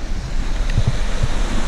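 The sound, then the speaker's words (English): Waves wash onto the shore as the tide comes in, making a steady, broad rushing surf. Wind buffets the microphone throughout, with a few dull low thumps and no voices. “the tides coming in. It's just a case of a meter every few seconds now.”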